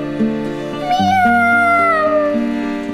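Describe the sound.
A kitten's long meow, a drawn-out, wavering cry that slowly falls in pitch, sounding over steady musical accompaniment in a children's song about a little cat crying for its mother.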